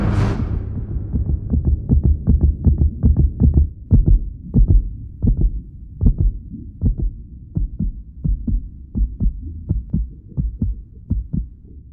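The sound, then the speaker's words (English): A slowing heartbeat, many deep, loud, regular low thuds over a steady hum, opening with a brief hissing burst. “As Maddie's heart slows, images flash of her family and childhood.”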